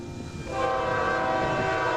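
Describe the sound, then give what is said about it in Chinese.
A train horn sounds on a railway line about 9 km long that runs from a factory to a test range. The steady, harmonic blast starts about half a second in and holds over the low rumble of the train, with no voices. “这是一条长约9公里的铁路，是新型号装备出厂前往靶场的必经之路。”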